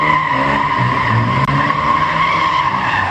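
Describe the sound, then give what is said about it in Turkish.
Tires skid and squeal as a car drifts in the middle of a street at night in Erdemli, Mersin, a loud, sustained, high-pitched screech over a low engine drone with one brief click midway. “Bir sürücü gece saatlerinde sokak ortasında drift attı.”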